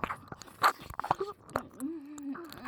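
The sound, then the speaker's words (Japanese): Food being chewed with wet, crunchy bites: a few sharp, loud crunches early on, then softer clicks and smacking. A brief voiced sound comes through near the end. “私がブリードハートを初めてを食べたかったのに、そんな美味しそうな咀嚼を鳴らして、”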